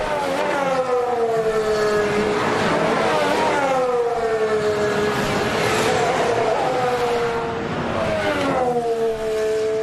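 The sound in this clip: Formula 1 race cars driving on a track: high, buzzing engine whines sweep up and down in pitch through repeated gear changes, forming a continuous loud roar.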